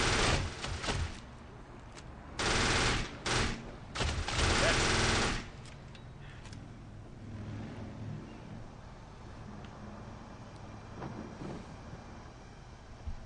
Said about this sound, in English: Oh, somebody's shooting you from the side.